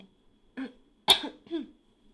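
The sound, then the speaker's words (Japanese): Throat clearing by a person pausing mid-talk: three short, quiet rasps spaced apart, the middle one sharper and more cough-like, with silence between them. “ちょっとごめんなさい、なんか咳払いしたい”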